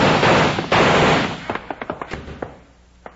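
Gunshots in a film shootout: a dense burst of noise gives way to a rapid series of sharp, loud cracks, then one last isolated shot after a short pause.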